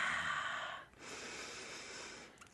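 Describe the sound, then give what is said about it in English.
A big, deep human breath: two long, soft, airy rushes of air with a brief pause between them, heard alone without talk. “I just invite you to take a big, deep breath with me.”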